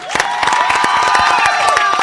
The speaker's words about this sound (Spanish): Un aplauso para Lalo Franzen,